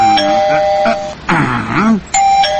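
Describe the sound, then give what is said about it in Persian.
Electronic doorbell rung at a house's street door, a steady bright chime tone sounding, breaking into a short warbling passage midway, then resuming the same sustained tone to the end. “صبر کن زیاد زنگ نزن که دستت چخ میشه.”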